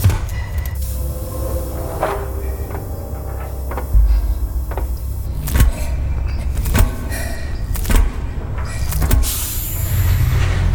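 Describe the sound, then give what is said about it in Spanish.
A spacecraft airlock to a terraforming bay opening: a sustained mechanical whir and hiss broken by several heavy clunks and thuds, with no voices. “Abre la bahía de terraformación. Abriendo la esclusa ahora.”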